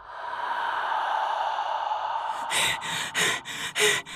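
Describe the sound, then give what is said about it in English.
Panting from a man out of breath: a rapid run of harsh, gasping breaths comes in after a steady droning stretch. The breaths are fairly quiet, with no talk. “Oh, he's out of breath again.”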